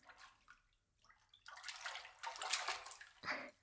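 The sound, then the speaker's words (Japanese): Water sloshing in a bath as someone settles into the hot water: a few soft stirrings, then louder, sustained swishing and splashing surges with short pauses. No talk. “少し腰を浮かせるような形でお湯に浸かっていただけますか？”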